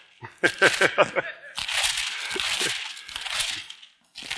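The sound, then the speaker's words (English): Thin Bible pages being turned, with a few short papery crackles followed by a sustained, soft crinkly rustle. “I'm trying to learn how to turn the pages of my Bible without tearing them. Sometimes, you know, you turn and you hear ripping like, oh, man.”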